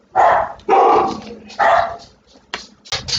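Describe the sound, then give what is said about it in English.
Dogs bark at a house, with a few loud, hoarse barks in an irregular sequence. Quieter, sharper yips follow near the end. “There's the dogs. Hold on.”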